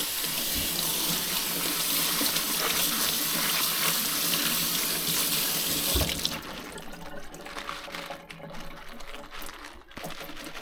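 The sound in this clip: Leaves being washed under a running tap, with a loud, steady hiss of water for about six seconds that then cuts off, leaving quieter handling noises.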